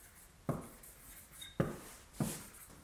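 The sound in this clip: Faint scratchy pen strokes as Chinese characters are written by hand, three short rasping strokes spaced apart against quiet background hiss, with no talking.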